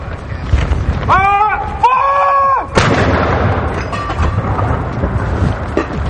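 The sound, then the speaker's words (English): A ceremonial gun salute fired at the Tower of London for the King's 75th birthday: a heavy, loud boom that rolls into a lingering low rumble, with voices and other sounds before it. “Gun salutes have been fired to mark the King's 75th birthday, including at the Tower of London.”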